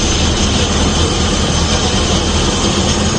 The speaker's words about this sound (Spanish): Pues mira, un helicóptero de emergencias que suena así.